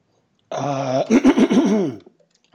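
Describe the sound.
Throat clearing, a loud voiced rasp that starts as a steady rough tone and breaks into a few rattling pulses before stopping, heard alone.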